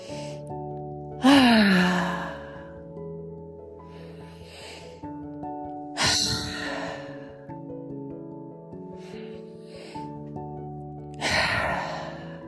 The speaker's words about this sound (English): Inhaling completely and exhaling deeply.